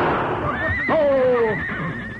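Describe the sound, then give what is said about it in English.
A frightened carriage horse neighing during a roadside holdup: one loud, wavering whinny lasting about a second, its pitch sliding downward, over steady background noise. “Stop that crazy horse.”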